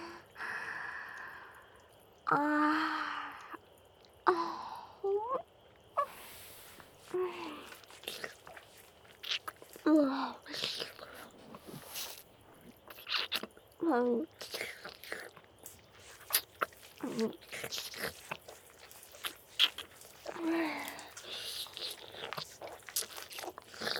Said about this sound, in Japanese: 舐めてもいいですか？